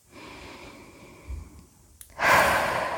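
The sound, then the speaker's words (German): Deep breathing during a guided relaxation exercise: soft, faint breath sounds give way to a loud, airy rush of breath that carries on to the end. “atme tief ein”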